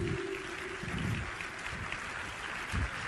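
Congregation applause during a church service, a dense, steady wash of clapping that holds at an even level throughout with no voices standing out.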